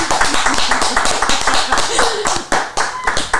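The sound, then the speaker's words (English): Many sharp hand claps ring out in a quick, fairly steady rhythm, filling the whole stretch while voices talk and cheer along with them. “Let's give him another hand clap, please.”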